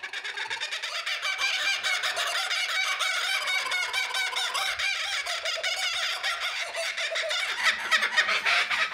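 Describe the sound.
A bird's laughing call, a rapid run of harsh, cackling harmonic notes repeated without pause for about nine seconds, loud and steady and alone, without any talk.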